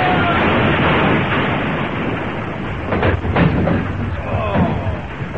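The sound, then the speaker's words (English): Battle gunfire from a volley fired on command, heard as a dense, continuous roar of noise with a few sharper cracks standing out partway through and near the end. “For the glory of France, open fire! Independent fire! Fire!”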